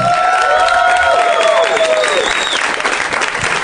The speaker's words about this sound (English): That was a nice loud ovation there at the beginning.